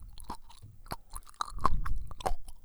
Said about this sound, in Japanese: サク。そしてかじる。